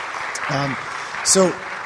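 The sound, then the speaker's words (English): A church gathering applauds a panel while the microphones are sorted out. The steady clapping runs throughout, with a voice speaking over it. “Well, why don't we give them a round of applause really quick while we're getting our microphone situation sorted out.”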